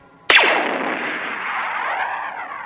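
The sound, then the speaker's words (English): Star Wars blaster sound made by striking a radio tower's support cables with a rock: one sharp metallic strike, then a long, zinging ring with sweeping tones that slowly fades. “he threw a rock at the support cables for a radio tower, and it made a kind of a cool sound, and he said to his dad, hey, that's what a space gun should sound like.”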